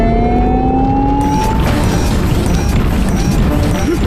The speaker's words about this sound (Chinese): 现在全力加速往裂缝前进吧。